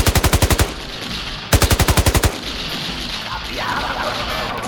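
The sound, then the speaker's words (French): Machine gun fire in the video game Deus Ex: two loud rapid bursts of about seven shots each, separated by a brief pause, followed by a lower steady background rumble. “Il y a un mec à la mitrailleuse.”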